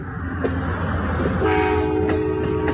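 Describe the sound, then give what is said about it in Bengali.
A train starts to move and depart, a steady low rumble of wagons with a sustained tonal horn joining partway through. “তাই তো train ছেড়ে দিল।”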